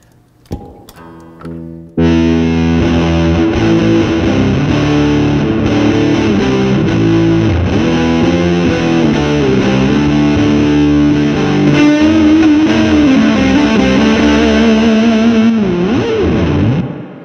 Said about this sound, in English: tons of people that love the Big Muff. Yeah. Can we actually start in there? Can we actually hear how you have it set up and run it through the Guild?